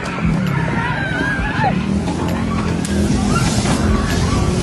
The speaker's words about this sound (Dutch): Je hoort het sissend geluid van vlammen die met grote kracht naar buiten spuiten en er is paniek.